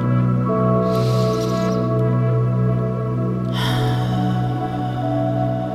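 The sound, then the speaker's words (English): A deep breath drawn in through the nose: a soft, airy hiss lasting under a second, with a longer breathy rush following later, over steady, sustained background music. “close your eyes and take a deep breath in through your nose.”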